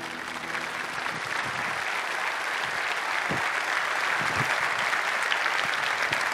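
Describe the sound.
Church audience applauding to welcome a speaker, a thick, even roar of clapping that holds steady from start to finish, with a few soft low thumps mixed in.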